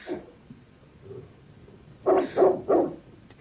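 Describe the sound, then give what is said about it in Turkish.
A dog barks three times in quick succession, loud and fairly even in pitch, after a quieter stretch with a few faint sounds; no one speaks. “Bu karabaşın sesi.”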